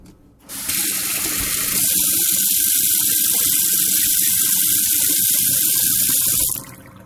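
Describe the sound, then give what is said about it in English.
Water running from a tap into a sink, captured as a high-frequency test for an MP3 recorder: it starts suddenly, settles into a loud, steady hiss for about six seconds, then cuts off abruptly. “And if I run water, which is another sort of high-frequency test,”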